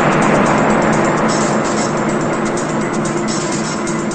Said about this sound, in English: It's nighttime as an old beat-up blue car drives down a hill toward a city.